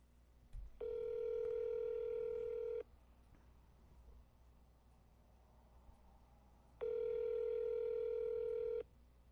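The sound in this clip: Telephone tones while calling a number back, two long steady electronic tones of about two seconds each, separated by a four-second gap of quiet line hiss.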